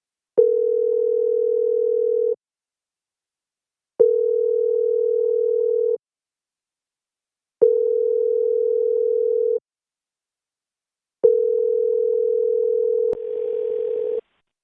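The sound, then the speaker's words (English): Ringback tone of a telephone call being placed: four long, steady ringing tones separated by regular pauses. The last tone is cut short by a click and a softer noise. “I want to call the Bissing House. Alright, you will speak to Bissing House.”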